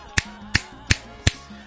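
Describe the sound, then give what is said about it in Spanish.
Four crisp finger snaps, evenly spaced about a third of a second apart, sharp and clear with no talking around them. “al chasquido.”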